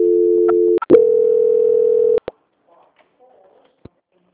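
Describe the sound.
A telephone tone plays while a call is being transferred. A steady low tone runs for about two seconds, broken once by a brief gap and clicks, then cuts off with a couple of sharp clicks and near silence.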